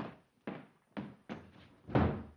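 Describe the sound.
Heavy, dull thuds at a house door, four distinct blows at uneven intervals after a fading one at the start, the last the loudest.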